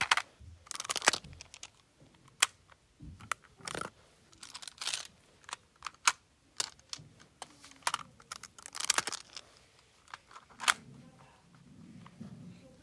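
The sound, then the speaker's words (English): Plastic building shapes such as diamonds, triangles and hexagons are handled for ASMR, producing quiet, irregular clicks, clacks and light rattles, with clusters of sharp taps scattered between soft shuffling. “diamonds, triangles, hexagons. They have all these cool, fun shapes that you can use and build with. And I think it's really, really fun to use. So I'm going to be doing ASMR with them.”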